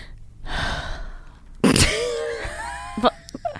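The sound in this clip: A loud, breathy exhale blown straight into a microphone, one sharp, rushing burst of air that trails off, with brief vocal sounds just after.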